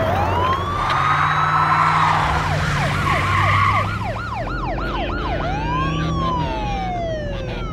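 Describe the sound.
Police car siren wailing in long rising and falling sweeps, then switching to a rapid yelping warble before a slower sweep returns. It is loud and continuous over a low traffic rumble, with no voices.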